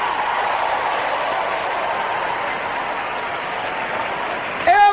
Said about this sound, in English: Come on, clap your hands, all you people.